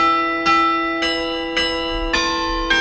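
Church bells ring in five evenly spaced, loud strikes over a steady, sustained metallic hum that carries between the strokes.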